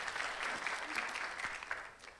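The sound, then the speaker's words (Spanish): Applause from a worship gathering praising the Lord: a faint, steady patter of many hands clapping together, holding an even level throughout without voices rising over it. “un fuerte aplauso para el Señor.”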